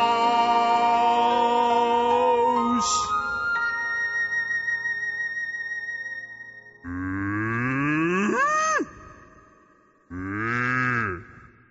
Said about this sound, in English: Now, where are the cows? We got to milk cows.